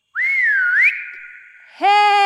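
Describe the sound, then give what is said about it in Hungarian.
A man gives a loud whistle to call his dog. One wavering whistled note glides up and down, then holds steady and fades. A second, brighter and harsher whistled blast cuts in at the end. “Kimegy a pitvarba, s nagyot füttyent.”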